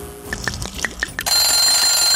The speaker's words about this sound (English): Oops, we're out of time. That's just my egg timer.